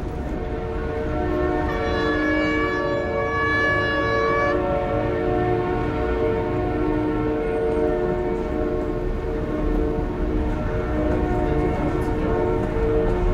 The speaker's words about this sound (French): Là, on descend les escaliers qui conduisent donc de la place de la Nation côté boulevard Voltaire, donc vers le RER.